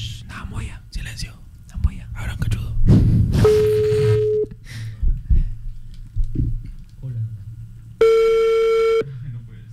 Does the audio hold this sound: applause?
no